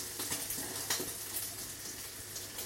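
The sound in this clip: Faint, steady sizzle of food with melted cheese frying in a pan just after being flipped, a soft continuous hiss dotted with a few small crackles, with no talk.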